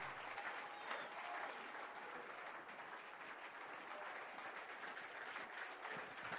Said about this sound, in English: Keep clapping. Don't stop.